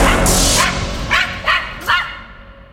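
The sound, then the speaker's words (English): A voice imitating a watchdog barking within a hip-hop track: a few short, sharp yapping barks in quick succession over dense music. “Yeah, I'm warning you, we rather make the sound of a watchdog”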